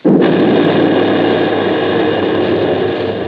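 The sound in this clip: A ship's gun fires a single shot, a sudden loud blast that swells at once into a dense, roaring rumble lasting about three seconds before easing slightly.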